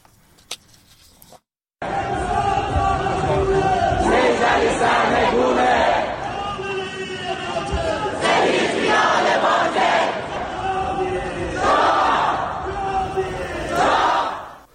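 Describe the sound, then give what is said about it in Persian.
Protesters chant in unison at a Melbourne rally supporting people in Iran. After a brief quiet opening, loud rhythmic shouted phrases repeat steadily. “این صدای تجمع کنندگان در ملبورن بود.”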